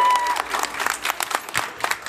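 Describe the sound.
Applause and crowd noise from a live audience at a trade fair: dense, steady clapping in rough surging bursts that fill the whole stretch at moderate loudness.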